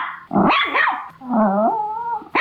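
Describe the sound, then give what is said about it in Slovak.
A Labrador and a Chihuahua barking, heard as two loud, drawn-out, yowling vocal calls in quick succession, the second a longer, wavering tone. No voices. “A to, že dnes je Medzinárodný deň psov, tak presne takto to oslavuje Labrador. Aj Čivava oslavuje.”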